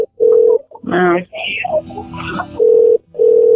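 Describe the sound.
A telephone ringing tone: a few steady low beeps of equal length, with a voice and other sounds in the gap between them.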